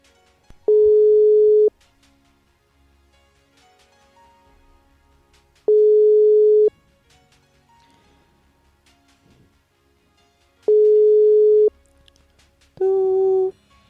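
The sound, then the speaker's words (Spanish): A telephone call rings out as a number is dialled. Three long, even ringback tones sound about five seconds apart, and then a shorter, different tone follows near the end. “Ahí te llamo, Chucho, ¿eh? A ver, se va a sentir el tú,”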